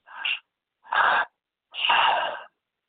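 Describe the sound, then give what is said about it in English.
Three forceful breaths drawn and pushed through the mouth in active breathwork: a short breath into the low belly, a second into the high chest, then a longer release out, each separated by a brief silence. “this breath work is 30 minutes of active breathing where you're breathing all through your mouth.”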